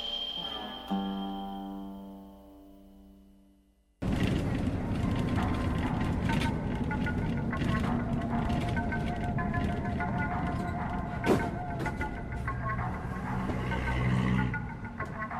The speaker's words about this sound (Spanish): Mejor agarro la calle paralela, así veo los autos y motos que vienen de frente.